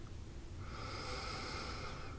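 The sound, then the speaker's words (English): A deep breath drawn in during a guided meditation: a soft, steady airy inhale lasting just over a second, fairly quiet. “Go ahead and take a nice deep breath in.”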